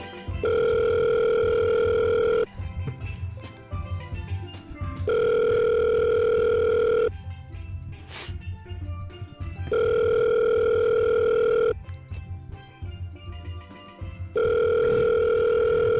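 Ringback tone of an outgoing telephone call: four long, steady, buzzing ring tones repeat at regular intervals, each about two seconds long. Fainter background sound fills the gaps, and the last ring is cut off.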